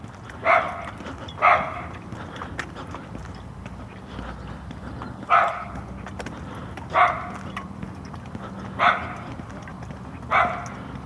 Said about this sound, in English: that's a big bark for a little tiny dog